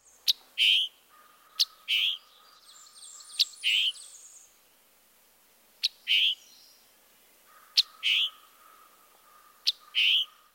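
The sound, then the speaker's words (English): Scarlet tanager giving its emphatic chick-burr call: six paired notes, each a sharp high click followed by a short buzzy burr, spaced a couple of seconds apart over faint steady background tones. “Perhaps the most diagnostic part of the scarlet tanager's vocalization is the emphatic call note, chick-burr, chick-burr.”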